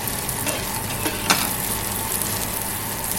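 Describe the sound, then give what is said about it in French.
Foie gras nuggets pan-fry until golden, giving a steady, dense sizzle throughout. A couple of brief clicks from stirring stand out near the middle. “il faut, juste les faire dorer. C'est quoi Voilà, c'est les faire poêler, dorer pendant 5, 4 à 5 minutes.”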